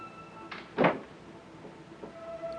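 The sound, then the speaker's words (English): A front door into a foyer opens and closes: a light click, then a single solid thump, followed by faint, quiet rustling. “He enters the foyer and closes the door behind him.”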